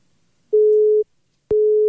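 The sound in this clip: Telephone busy signal: two pulses of a steady, mid-pitched electronic tone separated by a short silence, the second cut off at the end.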